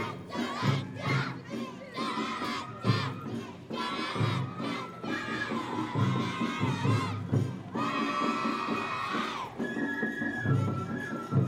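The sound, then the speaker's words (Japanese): A dense crowd at the Shinjo festival in 2017, where floats parade through the town playing various instruments. Loud, continuous shouting and chanting voices mix with sustained tonal notes throughout. “今年はさまざまな場所で祭りの中止が発表されました。私のふるさと新庄の祭りもその一つです。”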